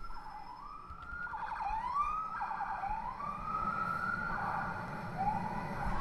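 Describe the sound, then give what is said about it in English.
A New York police car siren wails as the NYPD car hurries down a city street. Several repeated upward pitch sweeps rise and fall, loud and steady, over a low rumble of traffic. “And you know that's NYPD. And when you hear NYPD driving down the street in a hurry”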